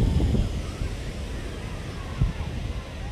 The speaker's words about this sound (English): You can probably hear the waves right now.